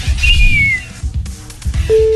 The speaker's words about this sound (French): J'avais jamais remarqué que j'arrivais pas à siffler.